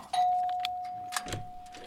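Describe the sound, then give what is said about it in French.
A doorbell rings with one sustained, steady electronic tone that holds for most of the moment, followed by a few faint clicks and rustles. “Allez, je sonne.”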